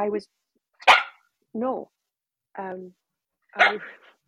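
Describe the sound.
A dog barks five times at roughly one-second intervals, each bark a short, tonal, yelping burst at moderate loudness with silence between them.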